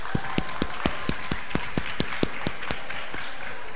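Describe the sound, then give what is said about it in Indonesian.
Clapping welcomes an Islamic religious teacher onto a stage, heard as a steady run of sharp, evenly spaced claps in a regular rhythm over a quieter background of crowd noise. “mari kita sambut beliau dengan tepuk tangan yang meriah”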